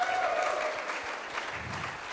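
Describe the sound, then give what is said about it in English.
An audience claps in dense, steady applause that runs the whole time at a fairly even, moderate level. “Let's give him a clap.”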